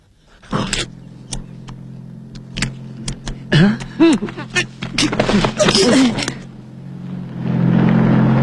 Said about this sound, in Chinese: 恰巧克莱格和弗拉尔开车路过这儿。